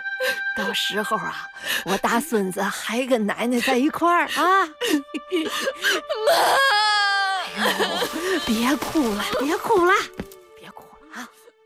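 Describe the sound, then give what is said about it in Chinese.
A person crying, the voice wavering and sobbing in strained bursts amid emotional talk between family members, with a longer shaky wail near the middle. “别哭了，别哭了，别哭了啊！”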